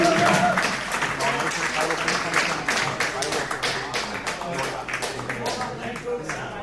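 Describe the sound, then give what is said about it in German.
An audience applauds with dense, energetic clapping that starts loud and gradually thins and softens over several seconds. “also, ihr macht Applaus hier, gut reicht. Danke.”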